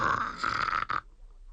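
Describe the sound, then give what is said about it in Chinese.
A voice imitates snoring with a continuous buzzing, rolling rasp that holds steady for about a second and then stops abruptly. “打呼噜呼噜呼噜呼噜呼噜呼噜呼噜呼噜呼噜呼噜呼噜”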